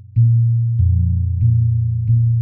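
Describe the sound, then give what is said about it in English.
Gamelan gongs struck with a large mallet give four deep, booming strikes at a steady pace, each one ringing on with a sustained low hum until the next. “Yeah, the gongs sound like this.”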